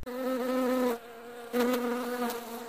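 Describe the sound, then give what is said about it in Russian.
A flying insect buzzes in a steady, loud harmonic whine, dropping away briefly mid-clip before resuming just as strongly, with no voices present. “не услышал тихого жужжания за своей спиной”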